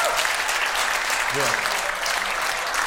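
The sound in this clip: Audience applause at a live comedy show: steady, dense clapping at even loudness through the whole clip. A brief voice cuts in near the middle.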